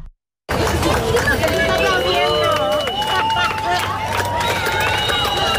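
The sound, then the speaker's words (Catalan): Hundreds of people on Barceloneta beach in Barcelona watch a total solar eclipse. After a moment of silence, loud, dense crowd chatter and excited shouts rise together and carry on without a break. “centenars de persones, ho sentim de fons, han viscut el gran fenomen astronòmic des de la platja de la Barceloneta de Barcelona.”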